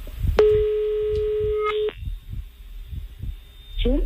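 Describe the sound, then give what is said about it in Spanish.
A ringback tone on an outgoing telephone call: one steady, mid-pitched tone lasting about a second and a half over a soft, low thumping background, followed near the end by a brief electronic chirp. “Vamos a ver si da tono la llamada. Ahí está, ¿eh?”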